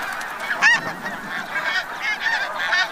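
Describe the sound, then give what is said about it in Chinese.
Snow geese honk on their Arctic breeding ground. Many overlapping nasal calls come from a busy flock, with a few sharper, louder honks rising above a continuous noisy chatter. “雪雁一生只忠于一个伴侣，每对雪雁到达之后就必须立刻占据一块筑巢地。”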